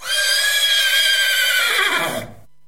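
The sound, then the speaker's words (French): A horse neighing: one long, loud, shrill whinny with a quavering tone that holds steady, then tapers and falls away near the end. “Les parents se réjouissaient déjà quand retentit un autre bruit de chevauchée.”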